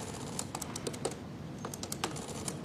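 Typing on a computer keyboard: many quick, light key clicks in an uneven rhythm with a few brief pauses, fairly faint and steady throughout, with no voices.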